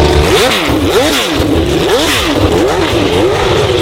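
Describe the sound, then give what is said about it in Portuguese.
A Formula 1 racing car's engine accelerates in a loud, high-pitched howl, its pitch sweeping up and down repeatedly across several rising and falling arcs, with no voices. “E o assunto é Fórmula 1, portanto, acelera aí.”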